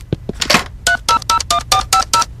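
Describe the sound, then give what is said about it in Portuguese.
A telephone number is dialed to reach an information service: a few clicks and handling noises, then a rapid run of short, evenly spaced touch-tone beeps, loud and clear, with no talking. “Vou ligar para o serviço de informações.”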